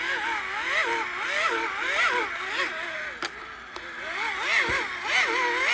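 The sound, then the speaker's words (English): Whirring hand crank on an old radio being turned, a wavering whine that rises and falls in pitch over and over, broken by a couple of brief clicks. “And then we're going to flip the crank out and we're going to turn it.”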